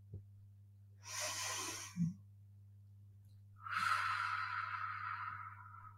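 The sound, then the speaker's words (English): Slow deep breath taken softly: an airy inhale, a brief snuffle, then a longer, fuller exhale that gradually fades, all over a faint steady low hum. “Let's take this deep breath together.”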